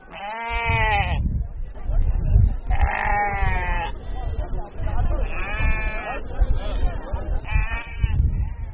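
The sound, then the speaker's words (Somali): Sheep and goats bleat at a busy livestock sale yard in Hargeisa, crowded with animals readied for export. Loud, wavering bleats come in repeated overlapping bursts over a constant rumble of animal movement. “waa saylada iibka xoolaha ee magaalada hargeysa waana ka dhaqdhaqaaq iyo aragtiba duwan tahay muddooyinkii lasoo dhaafay. waxaa buuxa xoolo tiro badan oo u diyaara dhoof.”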